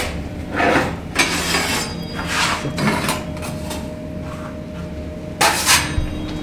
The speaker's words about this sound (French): Voilà, la plaque est chaude, on referme le four.